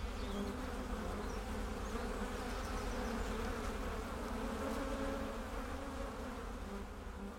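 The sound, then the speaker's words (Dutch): Honeybees buzz inside a hive holding some 50,000 to 60,000 bees. The hum is dense, continuous and low, at an even level throughout, with no voices. “In deze kast zitten misschien 50.000 tot 60.000 bijen.”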